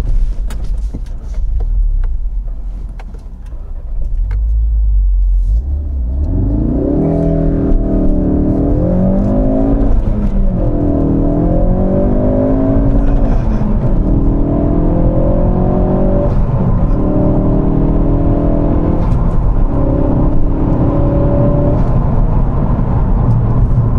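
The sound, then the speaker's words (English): A Ford Focus RS engine revs and accelerates hard, starting as a low rumble, then a loud, steady, rising growl whose pitch climbs and drops back several times at gear changes, with no talk. “This is what a Focus RS sounds like.”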